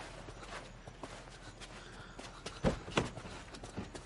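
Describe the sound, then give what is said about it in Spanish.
Footsteps of a man walking with effort toward a Mercedes: faint, uneven steps against a low background, with a few firmer footfalls toward the end. “Él se da la vuelta y camina con esfuerzo hasta el Mercedes.”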